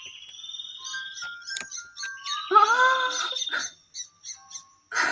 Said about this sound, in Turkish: Kuşlar.